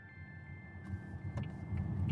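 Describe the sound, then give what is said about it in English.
The low engine and road rumble of a car driving through the countryside. A faint, steady drone with a few soft clicks grows gradually louder. “What an absolutely beautiful day to be driving through the countryside.”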